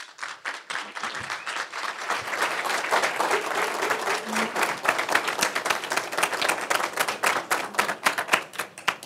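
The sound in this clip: Audience applause welcomes speakers to the stage at an economic forecast event held by the Federal Reserve Bank of Chicago: many hands clapping, building quickly, then holding a steady, dense patter before thinning at the end.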